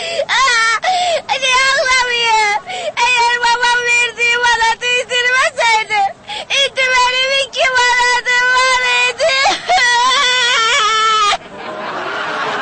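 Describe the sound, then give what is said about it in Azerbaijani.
A young girl cries in loud, high, wailing sobs, long drawn-out cries broken by short gasps, continuing steadily for about eleven seconds before stopping. “Nə oldu, ay qızım, niyə ağlayırsan?”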